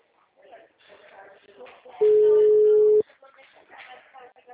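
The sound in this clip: A telephone ringing tone during a phone call: one flat, mid-pitched beep lasting about a second. Muffled talk runs before and after it.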